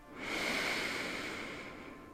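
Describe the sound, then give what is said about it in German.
A single slow breath is drawn in through the nose: a soft, steady airy hiss with a faint whistling edge. It swells and then gently tapers, quiet and alone. “Und ein letztes Mal durch die Nase ein.”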